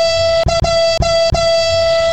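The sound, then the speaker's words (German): A loud, steady horn honking on one held pitch, broken by four brief gaps into a string of blasts, with nothing else heard. “Ja, komm, da können wir doch hupen.”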